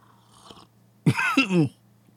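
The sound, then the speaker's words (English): Harsh, throaty coughing after coffee went down the wrong pipe comes as one loud, short spluttering fit broken into two quick bursts, with no talk around it. “Don't breathe the coffee. Oh, that went down the wrong pipe.”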